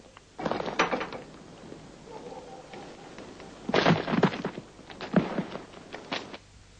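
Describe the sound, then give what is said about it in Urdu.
A door is broken down in a few bursts of heavy, crashing thuds separated by quieter stretches, with no talking heard. “آلی جناب آپ دروازہ کیوں توڑ رہے ہیں؟”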